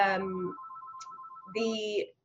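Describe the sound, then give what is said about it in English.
A mobile phone rings with a rapid, even pulsing electronic tone, heard in the pause between stretches of talk. “my mother's phone is ringing. I won't be answering it.”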